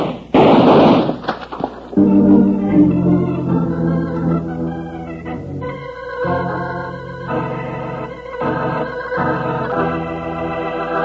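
Gunshots go off from a concealed sneak gun in a Western drama: a short, loud, harsh blast at the start, followed by a swell of dramatic orchestral music that holds at a steady level.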